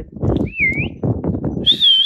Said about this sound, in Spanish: Ahí me aviento un chiflidío